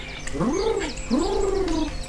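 A pet bird calls twice, each a drawn-out, low, rough call that rises and then falls in pitch, heard over steady background noise.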